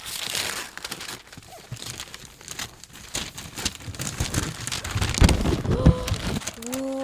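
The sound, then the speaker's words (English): Tape is peeled back slowly from a wrapped gift, giving a steady papery crackling and crinkling that continues throughout and grows slightly louder toward the end. “Let me pull back the tape really neatly.”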